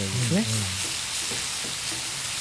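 Pork, lotus root and kimchi stir-fry in a pan with gochujang dissolved in mirin and soy sauce, giving a steady, bright sizzle and hiss throughout.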